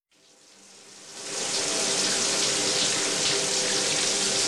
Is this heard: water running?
yes

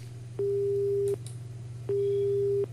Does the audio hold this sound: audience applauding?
no

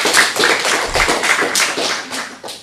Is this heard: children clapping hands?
yes

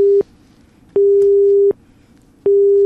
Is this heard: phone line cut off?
yes

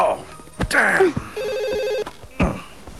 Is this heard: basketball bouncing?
no

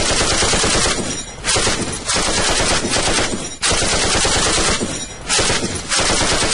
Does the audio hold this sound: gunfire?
yes

